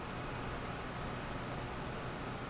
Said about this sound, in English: That sound you hear if you listen closely is the hum of a genome sequencing lab at UC Santa Cruz.